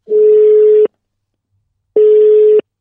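Telephone ringing tone: two long, steady mid-pitched beeps, each just under a second, separated by about a second of silence, with no voices.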